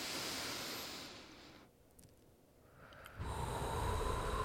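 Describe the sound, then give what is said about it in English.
A group taking a deep breath in together: a soft, airy hiss of breathing that dips into a quiet gap partway through, then returns slightly louder and steady until the end. “We're going to go ahead and breathe in.”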